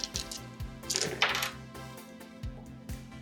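Eight dice clatter onto a table during a tabletop role-playing game, a short rattling burst followed by a few dull knocks over a steady low hum.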